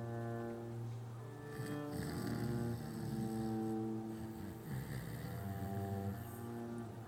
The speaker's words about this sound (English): Not only is that snoring close, it's familiar. Sounding like it comes from a larger man.